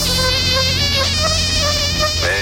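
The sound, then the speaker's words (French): Mosquito buzzing: a loud, continuous high-pitched whine that wavers slightly in pitch and holds steady for the whole clip. “Mais il y a aussi les moustiques.”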